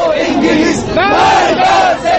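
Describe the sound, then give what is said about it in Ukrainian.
An angry crowd of Iranian students shouts and chants while storming the British embassy in Tehran, loud overlapping yells with brief surges and dips in volume. “В столиці Ірану сьогодні натовп радикально налаштованих іранських студентів увірвався на територію посольства Великої Британії.”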